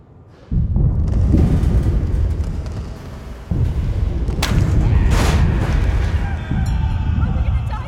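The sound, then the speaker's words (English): Bombs exploding in a series of heavy, rumbling blasts that shake the ground. Three big booms hit in turn, each one followed by a long, loud, low roar that slowly fades before the next. “The whole world just shook. The bombs have hit us.”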